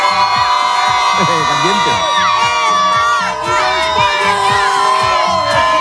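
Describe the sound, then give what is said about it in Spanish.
About a hundred football fans cheer and chant outside the Spanish national team's hotel in Chattanooga: a loud, continuous crowd roar with rhythmic chanting, shouts and whoops throughout. “en torno a 100 aficionados locales, sobre todo muchos sudamericanos que viven aquí en Estados Unidos y que han venido a decir adiós a la selección española por unos días, pero fíjate cómo suena”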